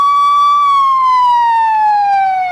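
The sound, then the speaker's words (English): An ambulance siren passing by: a loud, steady electronic wail holds one pitch, then slides gradually downward as the vehicle goes past, alone with no voices. “Now, hold on, we got a little ambulance passing through here.”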